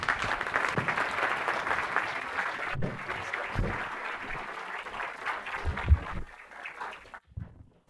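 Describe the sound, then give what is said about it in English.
Audience applause welcoming speaker Dr. Robert Hazen at a Science Sundays talk: moderate clapping that gradually thins out and fades away near the end. “So let's welcome Dr. Robert Hazen.”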